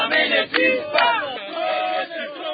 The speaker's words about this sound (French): Ce sont là les slogans que les journalistes ont scandés cet avant-midi devant le ministre de la Défense qui les a accueillis à l'entrée de l'état-major général des FRDC, point de chute de la manifestation.